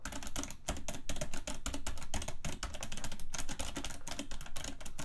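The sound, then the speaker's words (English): Rapid typing on a newly bought computer keyboard: many keystrokes clatter in a fast, steady stream with no pauses and no talking, loud and dense throughout. “I'm going to open up a Word document here and do some type in action. So you can all hear what it sounds like.”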